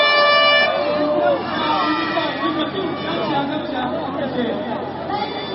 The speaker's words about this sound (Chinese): 大家有听到吗？大家有听到吧，这个喇叭声八普的声音已经出来了。